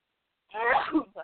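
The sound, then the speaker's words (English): A single sneeze, short and sharp, bursting out abruptly after silence, with a brief trailing vocal catch. “Bless you.”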